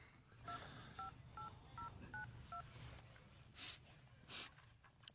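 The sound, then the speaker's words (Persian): Keypad tones beep as a telephone number is dialed: six quick, evenly spaced dual-tone presses, quiet under a hissy background, followed by a couple of soft breathy sounds. “من برم یه زنگ به آقای رسولی بزنم”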